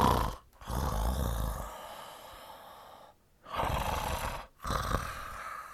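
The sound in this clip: A sleeping person snores quietly through a few slow, rasping breath cycles, each inhale rumbling and snorting, with short silent pauses between them.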